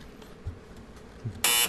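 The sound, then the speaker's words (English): A game show buzzer sounds for a wrong answer: one harsh, loud, bright blast that lasts a fraction of a second and cuts off sharply at the end, after a stretch of faint low thumps. “The buzzer says no.”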